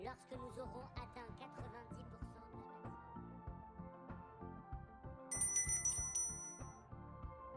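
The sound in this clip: A neighbour's doorbell rings with bright, high electronic chime tones that sound partway through over steady background music.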